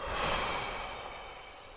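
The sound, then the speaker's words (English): A deep breath out through the nose during a meditation breathing exercise, a soft airy rush that is strongest at the start and slowly tapers off over under two seconds. “Take a breath in through your nose. Deep breath out.”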